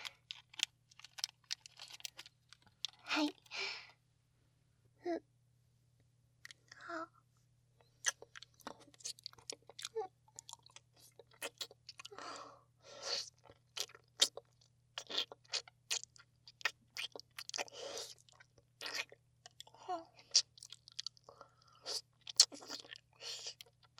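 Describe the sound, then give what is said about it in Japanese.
Crunchy chewing of strawberry chocolate, with many quiet bites and moist crunches in uneven bursts separated by short pauses. A faint steady low hum runs beneath, and no voices are heard. “ねえ、いちごのチョコもう一個食べたくない？今度は君から食べさせて。”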